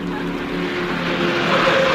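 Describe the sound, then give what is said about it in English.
Steady engine and road rumble from a car driving behind another on a street with traffic lights. A continuous broad noise swells slightly louder toward the end, with no voices. “There's a car behind us.”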